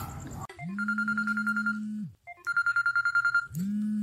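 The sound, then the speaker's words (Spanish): Electronic ringtone of an incoming telephone call, loud repeated rings of rapid pulsing beeps over a steady low tone, with a short gap between rings before the next one starts. “está entrando una llamada, así que hay que poner atención”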